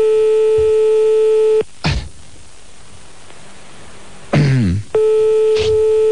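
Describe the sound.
Telephone ringing on a late-night call: two long, steady, buzzing ring tones separated by a pause of about three seconds, with brief noisy swooshes in the gap.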